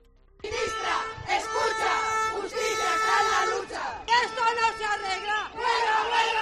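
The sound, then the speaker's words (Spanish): Striking justice-administration officials protest in Valladolid on the second day of an indefinite strike, staging a mock death and burial of justice. After a brief near-silence, loud massed shouting and chanting bursts in and continues with short pauses between phrases. “Es el sonido de la protesta hoy en Valladolid. Los funcionarios han puesto en escena la muerte y posterior entierro de la justicia.”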